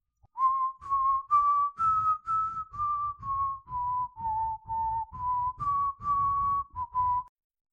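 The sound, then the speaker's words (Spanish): A person whistles through pursed lips, a clear, pure tone in a steady run of many short notes that rise and dip slightly in pitch with a brisk, even rhythm. “El silbo es un sonido agudo que hacemos con la boca. Para hacer este sonido, se juntan los labios y se expulsa aire a través de ellos. Un silbo o silbido suena así.”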